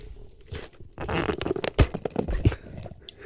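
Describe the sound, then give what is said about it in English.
A cup being opened slowly for ASMR, giving a series of crackling, rasping bursts that tear and peel in uneven spurts, some sharper and louder than others. “Now I'm going to slowly open a cup.”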